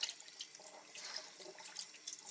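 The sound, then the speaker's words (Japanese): Tap water runs into a kitchen sink during washing: a steady, faint splashing hiss with small bright drips and no voices. “たとえそれが流しの水であったとしてもね。ほーら、洗っていきますよ。”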